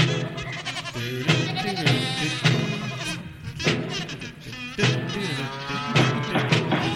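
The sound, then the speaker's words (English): Farm animals bleat in a sound effect, a long string of loud, wavering goat- or sheep-like cries that repeat over several seconds. “And let's bring in the farm animals. Get on in here. It's verdict time, farm animals.”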